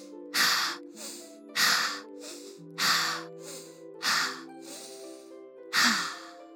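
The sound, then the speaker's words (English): Deep breathing as a relaxation exercise: five slow, breathy sighing exhales in an even rhythm, each rising and fading, over soft, sustained background music. “Try it with me. It really helps. Breathe 5 times.”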